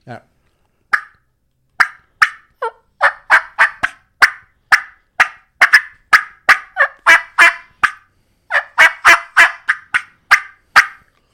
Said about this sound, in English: If I can get her to do that cut and yelp where she's getting excited and she'll come right in, man. You'll hear it gets closer and closer.